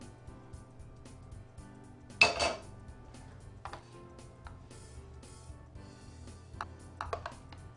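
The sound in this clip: A utensil clinks and scrapes against a dish as a final layer of sweet potato is spread, with one sharper clatter and a few faint taps scattered through otherwise quiet, talk-free stretches.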